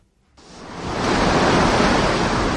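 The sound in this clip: Roaring surf and gusting wind on the stormy Baltic Sea at Mielno in force 7 winds: a dense, steady wash of noise that swells in after a brief quiet start and stays loud throughout.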